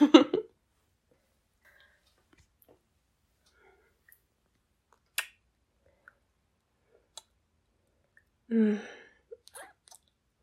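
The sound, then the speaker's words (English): A kiss comes through as a few brief, soft lip smacks and clicks, scattered across near silence. “Can you kiss me? Oh, hot damn, plant one on me.”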